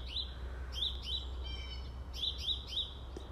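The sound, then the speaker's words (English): Birds chirp outdoors in a series of short, high, bright tweets, with a brief rapid trill in the middle, over a steady low hum. “Birds are still chirping. It's going to be a beautiful day.”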